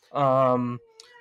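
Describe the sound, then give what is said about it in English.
A cat meows once in a single drawn-out, clearly voiced call that lasts under a second, loud and alone, followed by a faint, thin steady tone. “I think that's a cat. Oh, it's a cat.”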